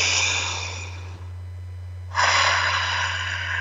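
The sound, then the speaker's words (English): Deep breathing during a guided breathing exercise, drawn in through the nose and let out through the mouth: a long, airy breath, a short pause, then a stronger, louder breath, all over a steady low hum. “Big deep breath. In through your nose, out through your mouth like a straw. One more big breath.”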